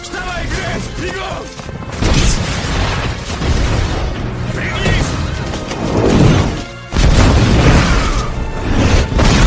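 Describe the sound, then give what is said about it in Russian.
Heavy explosions behind people running in an audio drama, loud booming crashes that come in several surges, each rolling into rumbling debris noise, with voices heard at times. “Сзади бегущих Аматикая раздаются взрывы. Их отбрасывает взрывной волной вперед.”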